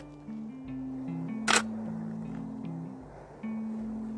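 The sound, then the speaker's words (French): A single crisp camera shutter click from a camera without a telephoto lens, taking a photo, sounds once over a steady low drone with shifting humming tones. “Bon, on n'a pas le téléobjectif, mais j'espère qu'il y aura une photo ou deux d'exploitable.”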